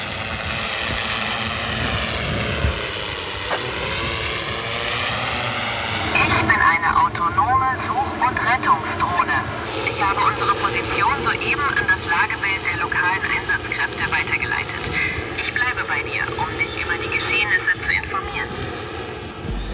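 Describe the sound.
Propeller buzz from a rescue drone flying overhead during a system test in the flood-hit Ahr valley: a steady droning whine with shifting harmonics that grows louder partway through and stays loud, with a voice talking over it.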